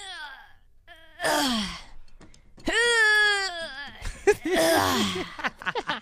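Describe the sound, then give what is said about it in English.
A human voice imitates a weak person weightlifting, producing several drawn-out, wavering groans and moans. Strained sighs and short gasps fall between them, and the effort sounds grow choppier and more broken toward the end. “This is a weak person weightlifting.”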